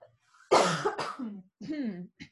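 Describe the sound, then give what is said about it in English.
A person coughing: two harsh, sharp coughs in quick succession, followed by a few short voiced throat sounds. “But I keep coughing. Hold on.”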